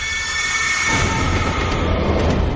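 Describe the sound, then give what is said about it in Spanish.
A train slows down alongside a station platform, a heavy, steady rumble with a broad roar that swells in after the first second and stays loud to the end. “el tren ralentiza su marcha”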